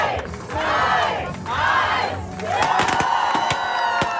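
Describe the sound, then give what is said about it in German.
A crowd cheers as a record is set for seven days of nonstop CPR on dummies. Whooping shouts swell and fade twice, then break into louder cheering with scattered sharp claps. “Ey, so klingt es, wenn ein Rekord aufgestellt wird, im 7 Tage hintereinander jemanden wiederbeleben.”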